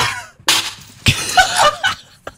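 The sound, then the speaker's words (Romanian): A protocol plate smashed on purpose, Greek style, at Radio Zoo: a few sharp shattering crashes, each with a short clattering tail, spread across the moment with quieter noises between them. “În momentul ăsta, sparg o farfurie de la protocol de la Radio Zoo.”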